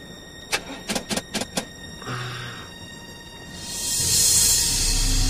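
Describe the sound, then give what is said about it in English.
A motorhome engine is being started: a few sharp clicks come first, then a brief whir, and then a broad engine roar swells and holds to the end. “Bix tries to start the motorhome.”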